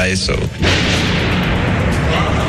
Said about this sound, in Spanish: Las primeras explosiones resuenan sobre Kiev. Varias oleadas de misiles se suceden hasta el amanecer.